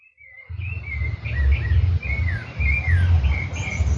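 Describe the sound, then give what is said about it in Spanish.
Several different birds singing and answering each other, whistled and chirping phrases trading back and forth throughout over a steady low rumble. “Estamos escuchando un contrapunto de distintos pájaros.”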